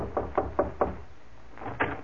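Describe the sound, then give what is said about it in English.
Knocking at a door: four sharp, evenly spaced raps, a short pause, then two more knocks, the second of these louder, with no voices. “I'll see who's at the door”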